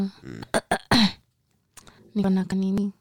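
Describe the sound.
A person clears their throat in a few short, rough bursts, followed by a longer voiced sound, with no other talk.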